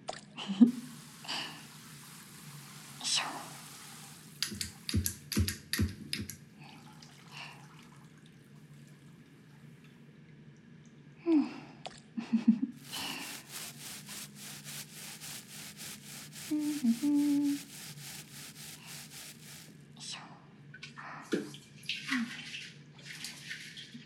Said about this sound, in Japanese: 今から体洗うけど